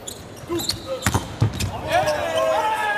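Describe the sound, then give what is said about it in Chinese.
Volleyball bounced on the floor before a serve in a match, a few dull thuds under a commentator's steady talk. “王斌来发球，好发，”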